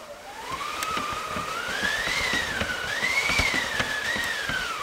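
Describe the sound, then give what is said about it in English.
An 18th-century wooden wind machine, a wheel turned by a side handle in a theatre, produces a continuous howling whoosh whose pitch climbs and dips in waves as the crank turns, steady and fairly loud. “There's a wind machine, which basically is like a wooden wheel and a handle on the side of it. And if you turn it, it sounds like this.”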